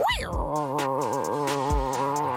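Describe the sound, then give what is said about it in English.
A person imitates a strong tiger growl with a loud, sustained, buzzing voiced rumble whose pitch wavers unevenly throughout. “A good strong tiger growl.”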